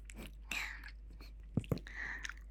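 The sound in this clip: Durian being eaten produces faint, soft, wet chewing and mouth sounds, with a couple of sharper bites or clicks near the middle and quiet breathy noise around them.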